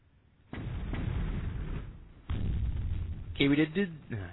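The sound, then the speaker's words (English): Grenades explode in a capture-the-flag video game match as two heavy, booming blasts with rumbling tails, a couple of seconds apart, followed by a short burst of voice. “We've got some grenades coming in.”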